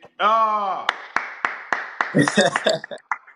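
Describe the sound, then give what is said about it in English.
Hand clapping in a run of sharp, separate claps at a fairly even pace. They follow a voice, and talk overlaps the later claps. “are you clapping? Are you crazy?”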